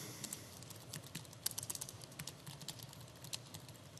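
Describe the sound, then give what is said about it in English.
Faint, rapid keystrokes on a computer keyboard while a commit message is typed: many light, irregular clicks in quick bursts with short pauses, with no voices. “I'm now able to type a commit message and actually do the commit.”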